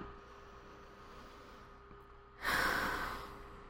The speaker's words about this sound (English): So I'm going to take a deep breath, and I invite you to take one with me.